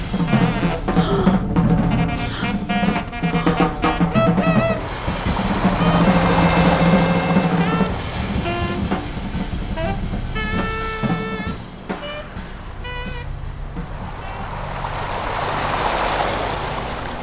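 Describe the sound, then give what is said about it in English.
Ocean surf washes in and pulls back in steady, loud swells, the rushing spray building and easing in broad surges with no voices. “The surf pulled in and retreated.”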